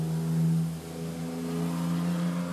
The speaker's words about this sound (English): That was a red minivan driving by.